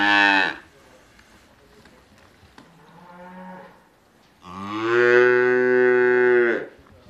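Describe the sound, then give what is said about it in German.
Calves separated from their mothers moo and call: a few bellows, from a short call and a fainter, lower one to a long, loud, drawn-out moo. “sie werden noch eine Zeit lang nach ihren Müttern rufen. Drei Monate lang haben die Kälber mit ihnen zusammengelebt.”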